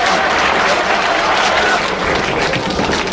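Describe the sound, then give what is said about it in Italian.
A crowd applauds loudly after a singer's performance. A dense, steady roar of clapping fills the stretch, with crowd voices mixed in beneath it. “due minuti di applausi.”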